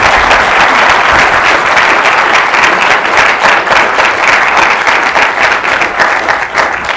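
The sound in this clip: Audience applause welcoming guest speaker Professor Deirdre McCloskey at George Mason: dense, loud, continuous clapping from a crowd, holding steady for the full seven seconds without fading.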